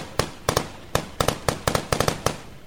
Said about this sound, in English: It's supposed to be a Kalashnikov. This is an AK-47 assault rifle.